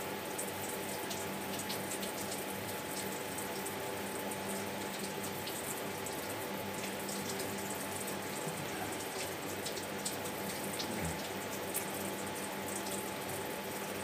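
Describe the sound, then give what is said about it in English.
Water runs from a tap while someone washes their face, a quiet, steady hiss of flow that continues unbroken. “Now, just a bit of water.”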